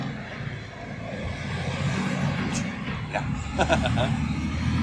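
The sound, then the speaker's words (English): A sand and gravel truck drives by, heard as a steady low engine rumble that swells slightly. People talk over it throughout. “Now we've got the sand and gravel department driving by. This is amazing.”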